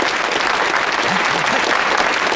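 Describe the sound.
Steady applause from an audience welcoming a railway guerrilla squad leader to the stage to speak, a dense, even patter of clapping filling the whole clip.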